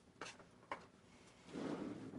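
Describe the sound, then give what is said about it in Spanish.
A drawer being opened in an office: a couple of short knocks, then a longer, louder sliding scrape toward the end. “Abre un cajón.”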